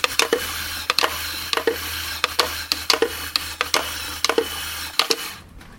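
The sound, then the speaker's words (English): Rapid tapping and scraping played as music on the lid of a plastic instant noodle pot, with many sharp clicks in an uneven rhythm over a faint steady low hum, ending abruptly. “The sound you just heard was being played, of course, on the lid of a pot noodle.”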